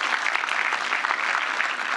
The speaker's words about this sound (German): Nochmal Applaus, ja.